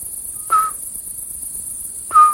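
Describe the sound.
Large insects sing at night in a continuous, thin, very high-pitched buzz. Two short tonal whistles cut in about one and a half seconds apart.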